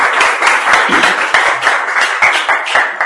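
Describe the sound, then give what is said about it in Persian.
Audience applause, many hands clapping in a dense, loud and steady patter that keeps an even level from start to finish, with no voices over it. “دوستان تشویقشون بکنید.”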